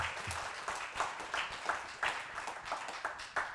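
Audience applause for departing children and their teachers, a dense, steady wash of many hands clapping at moderate volume throughout.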